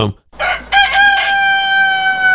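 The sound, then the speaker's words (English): Rooster crowing: a short noisy burst and a brief silence, then one long, loud crow with bright harmonic tones that hold steady to the end. “He said, no, that's a rooster.”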